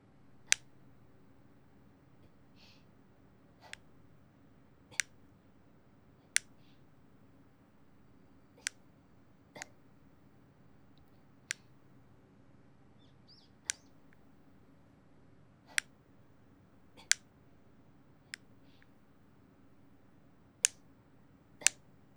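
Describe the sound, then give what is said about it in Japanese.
Nail clippers snip fingernails in a steady, regular rhythm. Many crisp, sharp clicks are evenly spaced over a quiet, faint hum, with no voices. “爪を切るパチンパチンっていう”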